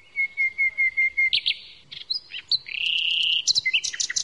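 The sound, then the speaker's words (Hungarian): Small hidden birds sing, opening with a quick, even run of high chirps, then breaking into varied whistled and trilled phrases that rise and fall over a few seconds. “Hát a többi madár is érdekesnek tűnt. Nagyon kellemes a hanguk, szépek, kicsik, és elbújnak. Csak a hangukat lehet hallani.”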